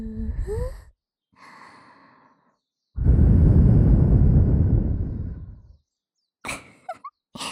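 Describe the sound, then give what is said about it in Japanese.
A deep breath, with a faint drawn-in inhale followed by a long, loud, rushing exhale that slowly fades. Brief short vocal sounds come before and after it. “ご主人様、落ち着いて。ほら、深呼吸。”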